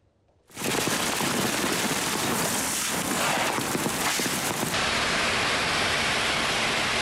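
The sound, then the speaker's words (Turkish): A sudden, heavy midday downpour of rain over city streets in Ankara starts abruptly with a loud wash of dense hiss. The sound then holds steady and unbroken with no voices. “Ankara'da öğle saatlerinde aniden bastıran sağanak yağış hayatı olumsuz etkiledi.”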